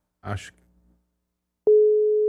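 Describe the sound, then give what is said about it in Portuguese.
A telephone ringback tone sounds while a call is being placed: one steady, mid-pitched tone held to the end, coming after a short burst of speech. “Liga ao vivo, vamos ver se ele atende. Vamos ligar. Tá chamando. Tá chamando.”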